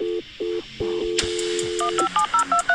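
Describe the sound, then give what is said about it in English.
Dial-up modem dialing tones as a computer starts a dial-up connection: a sequence of short electronic tone beeps, a burst of hissing noise, then a quicker run of evenly spaced higher beeps. No voices. “Let me turn on the router. Enter my password. And we're about to dial up.”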